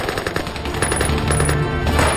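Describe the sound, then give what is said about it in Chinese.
Machine-gun fire erupts in an ambush as enemy vanguard troops enter a village mouth, with gunners hidden on both sides of a gorge. The loud, dense rattle is continuous and rapid, sustained without pause throughout. “在司令员杨成武的指挥下一起开火”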